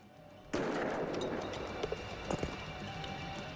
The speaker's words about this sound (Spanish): Volvieron a usar el cañón de agua. Dispara cuando estés listo.